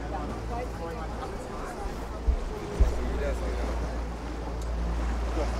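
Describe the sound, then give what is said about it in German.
A 15-horsepower motorboat cruises through Rostock's city harbour with a steady low engine drone beneath rushing wind and water noise. Two brief knocks break through a little past the midpoint. “Mit 15 PS geht es erstmal durch den Rostocker Stadthafen.”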